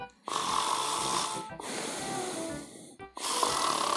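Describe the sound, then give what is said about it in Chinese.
A voice imitates the soft snoring of little moles sleeping on their father's back. Three long, breathy snores rise and fall in a slow rhythm, each separated by a short gap. “呼呼呼！他们小声的打着呼，也在爸爸的背上睡着了。”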